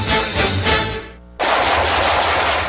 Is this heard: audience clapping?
no